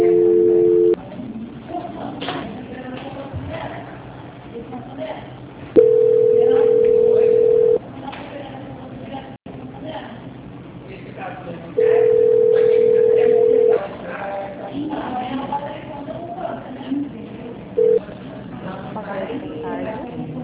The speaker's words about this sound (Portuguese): Eu vou agora transferir rapidamente para o controle de qualidade, que vai dar continuidade à contratação do consignado da senhora. Aguarde só um minuto, por gentileza. Transferência.